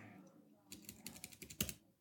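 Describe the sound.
A computer keyboard is typed on to search for a name online. A quiet pause comes first, then a quick burst of many crisp keystrokes, with a louder tap near the end.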